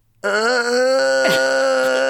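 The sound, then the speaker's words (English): A voice imitates moaning: a strained vocal groan, held at a steady, fairly even pitch for almost two seconds. The tone is rich and buzzy, with no words spoken. “like there's a lot of moaning. There's a lot of moaning.”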